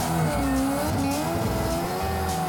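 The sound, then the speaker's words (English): A car doing handbrake donuts, its engine droning steadily while the tires squeal continuously at a loud, constant level as it slides around. “we'll just come in, little handbrake entry, do some donuts, a little bit of gas. Straight into it. Little handbrake, that's it.”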